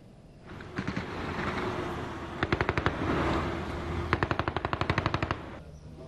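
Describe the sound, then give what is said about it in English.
Automatic gunfire in a gun battle between security forces and assailants at an intelligence service center in Kabul: several rapid bursts of shots over a steady rumble, ending in the longest burst. “Police officials say security forces have cordoned off the area and are engaged in a gun battle with the assailants.”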